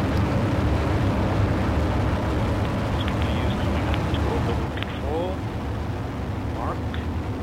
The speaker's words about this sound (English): Main engine start, ignition, and liftoff of the Atlas V with Maven.